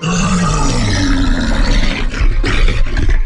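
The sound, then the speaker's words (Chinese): A loud, sustained roar from a giant one-eyed, ogre-like beast with long, sharp, yellowed teeth, made as a sound effect. It is a dense, rumbling growl that fills the whole clip without a break. “巨兽咆哮了一声，声音的冲击力让周围的石头都炸裂开来”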